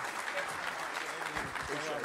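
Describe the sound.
A church audience applauds to welcome a speaker to the stage: steady, dense clapping that stays fairly faint and even throughout.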